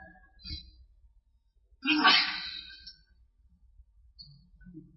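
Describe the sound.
A single sneeze, loud and breathy, bursts out during a religious lesson on Quran interpretation, with brief faint voice sounds before and after it.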